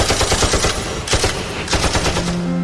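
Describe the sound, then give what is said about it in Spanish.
Calibre .50 machine guns fire aboard a ship in a loud, dense, continuous rattle of rapid shots that runs through the whole clip without a break, with no voices. “Tenía los tapones en la mano cuando empezaron a disparar las metralletas calibre 50, justo al lado de mi cabeza.”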